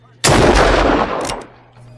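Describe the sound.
A single loud gunshot in a TV drama scene, fired from a gun held right behind a man's head, cracks sharply and rings for about a second before fading to a low hum.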